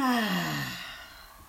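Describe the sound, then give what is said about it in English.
A deep exhale pushed out during a forward-bending stretching exercise, voiced as a sigh whose pitch slides steadily downward as it fades from moderately loud to quiet over about a second and a half. “So deep breath in Now exhale and go down.”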